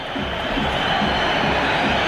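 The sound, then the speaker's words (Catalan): A football stadium crowd protests during a match between Alavés and Girona. The sound is a continuous, loud, broad roar with no distinct chants or whistles standing out. “Què es queixa el públic? Què passa?”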